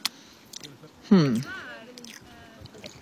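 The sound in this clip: Chewing on a bite of food: a few soft, wet squishes and crunches with a short hummed vocal murmur partway through, otherwise fairly quiet.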